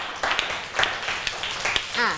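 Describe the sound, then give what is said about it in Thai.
Schoolchildren in a class clap for classmates who answered a question. Short, uneven bursts of clapping are followed by a voice speaking near the end. “ปรบมือกับเพื่อนที่ตอบทุกคนด้วยค่ะ”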